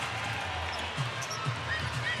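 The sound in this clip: Basketball dribbling on court in a women's professional game: a few dull, low bounces spaced about half a second apart over steady, loud background noise.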